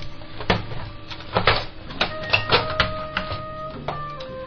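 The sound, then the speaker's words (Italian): A radio with no power input has its casing opened up to get at its insides, giving many sharp plastic clicks and small knocks in irregular succession. “Poi siccome questa radio non ha ingressi, noi siamo costretti ad aprirne l'interiora così.”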